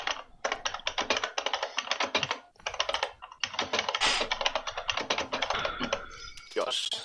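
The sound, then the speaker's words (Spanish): Someone typing hard on a computer keyboard: many rapid, loud key clicks in dense bursts, separated by short pauses. “Hay alguien que teclea con ganas. ¿Cómo se tiene que teclear cojones ahí?”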